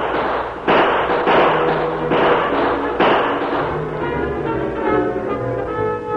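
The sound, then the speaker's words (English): Gunfire sound effects for a Western shootout, with two men firing on attackers creeping down a grassy hillside: a few heavy bangs at uneven intervals over a continuous crackling, rumbling bed of noise. “That was enough for the Lone Ranger and the marshal, and they opened fire.”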